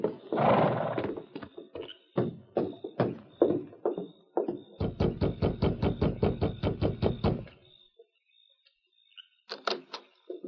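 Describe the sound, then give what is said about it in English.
Horse hooves clop as a rider arrives in a small town at a doctor's home: scattered uneven knocks give way to a quick, regular run of hoofbeats, then a pause and a few final sharp taps. “Then he rode into town and sought out the home of Dr. Ned Howe. Oh, easy, steady, big fella.”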